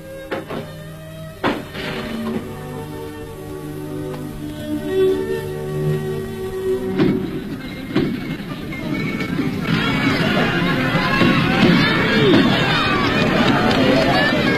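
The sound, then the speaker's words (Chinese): Crowd noise at a horse race during an annual festival: a speaking voice with quieter background at first, then a broad din of cheering and commotion that swells in the second half and stays loud to the end. “秋高气爽，景色宜人，赛马场上聚集了很多人，大家欢呼着笑着，这是他们一年一度的节日。”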